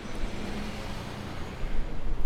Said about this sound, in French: Il y a un bus qui passe.